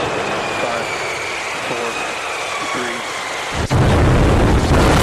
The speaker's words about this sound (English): That noise represented twice the thrust of the rocket that sent men to the moon.